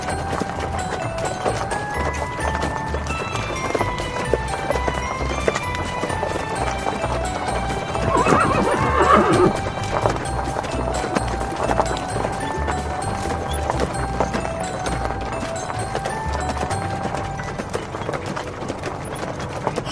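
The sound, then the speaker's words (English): Horse hooves clip-clop steadily as a horse pulls a farm wagon, making a continuous, even rhythm of soft hoof beats that carries on throughout without pause. “I'm Farmer Flatwoods, so hop on my wagon and let's mosey over to Flatwoods Farm.”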